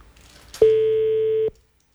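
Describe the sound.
A telephone busy tone sounds after a call is cut off: a faint click, then one steady, mid-pitched electronic beep lasting just under a second, alone in silence.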